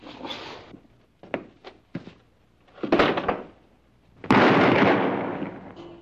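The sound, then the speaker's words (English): Gunshots in a dramatic scene where a lottery winner is shot: a few sharp, separate pops, then one loud, heavy blast that rings out and fades slowly. “What was that? That was Lucky Francisco. He won the drawing today in the national lottery. And they shot him?”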